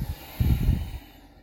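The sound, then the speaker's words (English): A person takes a deep inhale during a breathing exercise. One breathy, rumbling rush of air lasts about half a second, then fades into near silence. “Pause. Hold, holding, holding, holding. I'm about to inhale.”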